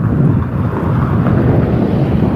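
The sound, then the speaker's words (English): A brisk wind blows straight into a microphone outdoors, making a loud, continuous low rumble and buffeting. It stays steady and unbroken through the whole stretch, with no voices. “It's a brisk wind.”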